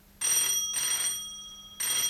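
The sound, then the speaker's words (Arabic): An old-fashioned telephone bell rings in a furnished room at about six in the evening. Two loud, bright rings are separated by a short gap, and the second fades slightly. A pause follows before a third ring begins. “نحن الآن حوالي 6 مساء. تدخل وولترز لترد على التليفون.”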